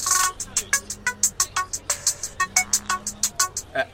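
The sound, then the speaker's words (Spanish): A phone ringtone signals an incoming call, a fast, evenly paced run of many short bright tonal notes repeating in a steady rhythm, with no voices. “Disculpen, tengo una llamada.”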